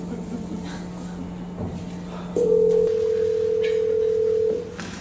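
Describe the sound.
A telephone call rings out: a low steady tone, then one long, higher ringback tone of about two seconds that cuts off, leaving quieter background.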